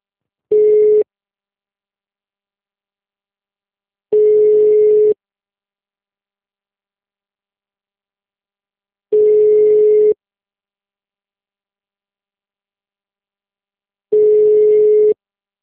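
Telephone busy signal after a call fails to connect: four steady, mid-pitched tone bursts, each about one second long, separated by long gaps of silence.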